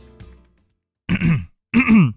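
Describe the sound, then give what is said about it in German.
Two harsh, gravelly throat clearings follow a moment of quiet, each a short rough burst of about a third of a second, the second slightly longer and louder. “Ich räusper mich dafür immer wie so ein Bekloppten. Mach ich immer.”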